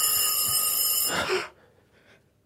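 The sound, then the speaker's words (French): A shrill electronic telephone ring at night keeps a steady high tone for about a second, then cuts off into a brief rushing noise and near silence. “Soudain, la sonnerie se met à hurler dans la nuit. Dehors, pas un bruit. Dedans, pas un bruit. Rien que la sonnerie du téléphone qui hurle dans la nuit.”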